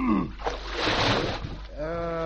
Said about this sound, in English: Fine place to leave a custard pie. Oh, dear me. All over me widow's shoes.